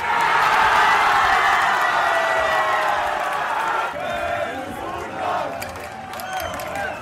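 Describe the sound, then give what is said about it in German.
Crowd in Leipzig cheering and whooping after the German national football team's World Cup win: a loud, dense, continuous roar of many voices, dipping slightly partway through before swelling again. “Überall wurde gejubelt über den Sieg unserer Fußballnationalmannschaft. In Leipzig klang das dann Samstag so.”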